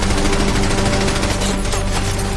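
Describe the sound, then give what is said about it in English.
Machine-gun fire in battle, bursts striking walls and windows: a dense, loud, unbroken rattle of rapid shots that runs the whole way through, with no voices. “And the machine guns burst against the walls and windows.”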